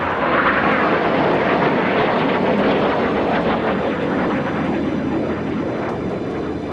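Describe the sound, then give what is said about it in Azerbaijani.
F-16 fighter jets flying low over Ankara produce a loud, continuous engine roar that holds steady and dense throughout, with no voices. “Çevrilişə cəhd edənlərin nəzarətindəki F-16 qırıcıları xalqı qorxutmaq məqsədi ilə Ankara səmalarında alçaqdan uçuş etməyə başladılar.”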